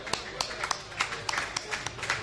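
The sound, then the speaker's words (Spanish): Sparse audience clapping to farewell a performer at a commemoration of the Avellaneda massacre: a few uneven, separate claps in quick succession, moderately loud. “Te despedimos con un aplauso. A los dos, va.”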